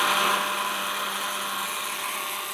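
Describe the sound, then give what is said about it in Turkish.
Batter being whisked smooth makes a steady, high, buzzing whir that stays even throughout, slightly louder at the very start, with no voices. “Evet bir tık fazla geldi gözüme. Şöyle güzelce çırpıyorum.”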